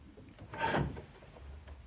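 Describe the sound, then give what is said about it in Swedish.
A hatch shut quickly and quietly: one soft, brief wooden scrape and thud in the middle of an otherwise quiet stretch. “Lillebror stängde luckan, fort och tyst.”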